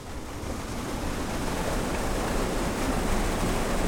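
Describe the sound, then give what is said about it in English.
Water rushes with a steady roar at a drinking water treatment plant in Huntington, West Virginia. The broad, even noise holds constant throughout, without distinct events or voices. “This is the sound of the West Virginia American Water Treatment Plant in Huntington, one of 14 drinking water plants that found blooms in their intakes during last summer's outbreak.”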